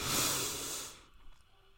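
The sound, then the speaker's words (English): One deep, airy inhale lasts about a second, a soft hissing breath that fades quickly into near silence. “Inhale balance. And exhale worry. Inhale vitality.”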